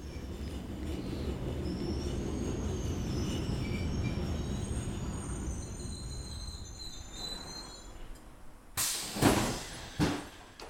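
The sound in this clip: A train pulls into a station with a steady low rumble of rolling wheels and thin, high squeals of wheels on rail. A few loud, sharp knocks break in near the end.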